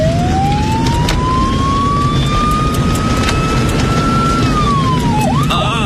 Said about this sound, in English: Look at this traffic jam, even at this time of night. It's time to use the siren, I think.